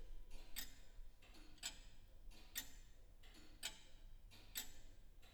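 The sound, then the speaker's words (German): Crisp ticks of a mechanical clock whose movement had been catching, now running more smoothly: five sharp, evenly spaced ticks about a second apart, fairly faint over a low steady hum, with no voices. “jetzt das Tick-Tack viel besser. Da hat es also gehakt in der, in der Mechanik”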